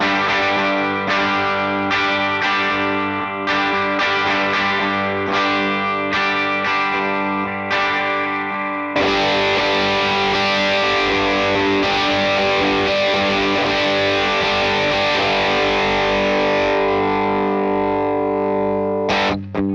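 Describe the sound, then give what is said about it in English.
Distorted electric guitar played through a Vox AC15 amp with an Analog Man Beano Boost pedal: several short, punchy chord strikes, then one long chord that rings out and slowly decays, loud and alone. “Let's compare the Vox AC15 with the Beano off, and then I'll turn the Beano on so you can hear not only the volume jump, but also the difference in saturation.”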